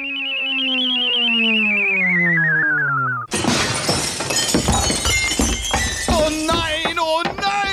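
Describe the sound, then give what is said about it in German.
Glass window pane shattering as a radio play sound effect: a sustained, wavering tone gives way to a sudden loud crash, followed by many scattering, tinkling shards and debris. “Schon wieder. Eine kaputte Scheibe.”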